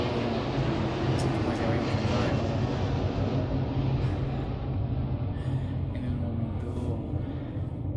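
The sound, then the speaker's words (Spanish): An airplane passes overhead as a broad, steady engine roar that gradually thins and fades. “ya que pasó el avión y hay calma, un poquito de calma”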